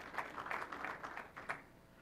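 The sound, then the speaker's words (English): Slow, faint clapping from an audience at a software presentation: a few isolated hand claps spaced evenly apart, soft and without cheering or voices. “Thank you. Appreciate the slow clap.”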